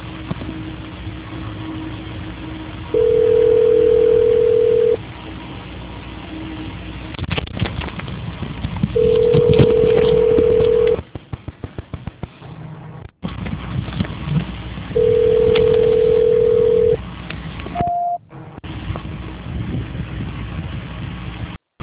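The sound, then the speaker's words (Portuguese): Telephone tones play while a call is being transferred: three long, steady, low-pitched tones at even intervals over constant line hiss, with a brief higher tone near the end. “Só um minuto, por favor, que eu vou transferir a sua ligação. Certo. Transferência.”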